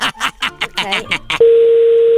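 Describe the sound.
A telephone dial tone sounds as a call is placed: a single steady, pitched tone that starts abruptly after a short stretch of speech and holds unchanged to the end.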